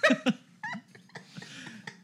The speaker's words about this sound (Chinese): 不要打嗝可以吗？